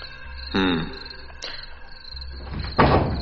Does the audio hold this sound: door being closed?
yes